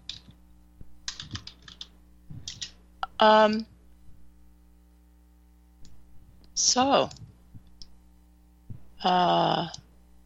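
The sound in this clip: Typing on a computer keyboard, with rapid, irregular clicks of keys pressed in quick bursts over a steady low hum, while people talk intermittently.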